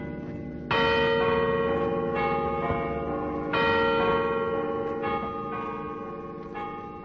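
Church bells ringing from the tower of an old garrison church to open Christmas 1940, several large bells tolling in overlapping strokes at a slow, steady pace with a rich, sustained ringing hum between strikes, heard alone without talk.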